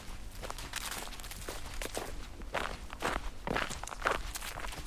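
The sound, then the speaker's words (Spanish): Footsteps walk along a trail that leads from a train station. Many steady, evenly spaced steps come at an unhurried pace, with no talking. “Ya en el camino, avanzo por este sendero desde la estación de tren Tras la Viña hasta Barrietas.”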